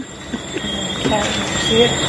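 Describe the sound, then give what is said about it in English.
A person imitates a cricket's chirping with their voice, making a rough, hissy, continuous noise with faint squeaky tones that sounds more like a rattling train than an insect. It runs steadily and grows slightly louder in the second half. “That was a horrible cricket. That wasn't even cricket. It sounded like a bicycle. It sounded like somebody's train.”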